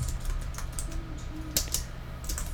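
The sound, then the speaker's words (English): Rapid, irregular clicking of typing on a computer keyboard during a search, with steady keystrokes and a slightly louder tap near the middle. “Oh, I can't type either, which doesn't help, of course. Not coming up for some reason.”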